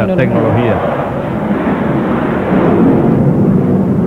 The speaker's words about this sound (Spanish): Parece un F-16. Nos están sobrevolando los muchachos de la Fuerza Aérea,